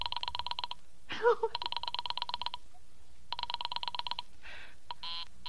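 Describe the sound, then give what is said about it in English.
Telephone dialing tones and a busy signal on a call to a Murray Hill exchange number: bursts of rapid, evenly pulsed electronic tones, broken by a brief rough sound and ending in a few different tone patterns. “I am sorry, Murray Hill 40098 is busy. I will call you. I can hear it. You don't have to tell me. I know it's busy.”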